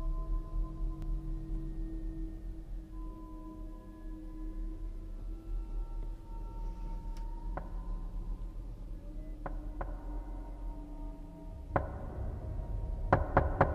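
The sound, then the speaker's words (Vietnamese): Knocking on a room door at night. A few scattered knocks end in a quick cluster of three, all set against a steady, loud low drone. “Ở ngoài cửa truyền đến tiếng gõ cửa mang theo một tiết tấu.”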